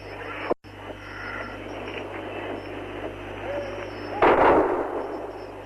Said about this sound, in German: Und noch einmal wird hier ein Salut geschossen.